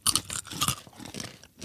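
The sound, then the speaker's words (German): Crisp crunching of breaded peanuts chewed close to the microphone: a few short, bright bursts of crunches with brief pauses between them. “Und der knackt fein in Mikro.”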